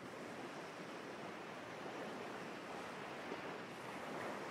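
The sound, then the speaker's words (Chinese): Gentle sea waves as the tide washes in make a soft, continuous hiss of water with no distinct breaks between swells, faint and steady throughout. “那轻柔的潮水声，就像是他熟睡的鼾声。”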